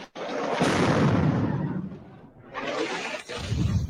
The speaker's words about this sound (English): These are 2,000-pound bombs, one of the most destructive munitions in Western military arsenals.